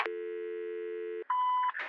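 Telephone tones after a handset is hung up: a steady low electronic tone holds for over a second, breaks briefly, then a higher, brighter tone sounds, ending in a short burst of noise.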